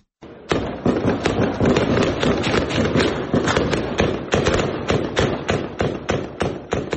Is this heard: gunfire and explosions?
yes